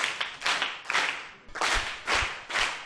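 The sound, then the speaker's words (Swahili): A group claps during a lesson in rhythmic, evenly spaced bursts of sharp hand claps, fairly loud and with no talking over them. “Pigeni makofi kwanza.”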